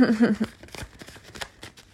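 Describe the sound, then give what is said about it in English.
Tarot cards are shuffled and one is drawn from the deck, giving a run of quick, faint papery flicks and snaps just after a brief voiced sound at the start. “As I was saying it, the card came out, as you heard.”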